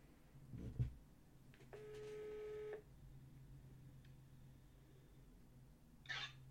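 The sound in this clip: A telephone call being placed: a single steady tone lasting about a second rises out of quiet line hiss. A brief thump comes before it and a short, higher burst follows near the end.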